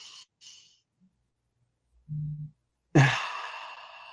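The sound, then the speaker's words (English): A deep breath demonstrated for a breathing exercise: brief soft airy sounds are followed by a short low hum, then a loud breathy exhale through the mouth that starts strongly and fades over about a second, like a long sigh. “you breathe in like this. Just hold it for a second and then breathe out with your mouth”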